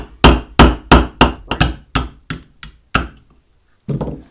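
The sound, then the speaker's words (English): Hammer blows on a 1/16 inch roll pin punch, driving a firing-pin retaining pin out of a gun frame. About ten sharp, ringing metallic taps come in a quick, even rhythm, then a short pause and one more strike. “Now we're going to take a 1/16 inch roll pin punch and drive this pin.”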